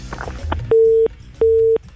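A busy tone sounds after a phone call cuts off: two steady, mid-pitched beeps of equal length separated by a short gap, loud and clear over a faint background hum.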